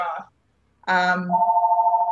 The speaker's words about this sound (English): Sorry about the phone in the background.